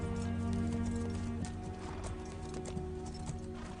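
A horse trotting unhurriedly, hooves clip-clopping in a steady, even rhythm, fairly faint over a low, continuous droning hum.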